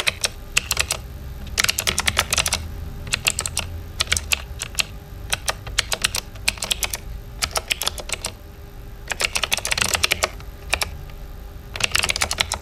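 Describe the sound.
Rapid typing on a computer keyboard: crisp clicking keystrokes arrive in many quick bursts separated by short pauses, steady in loudness, with no voices.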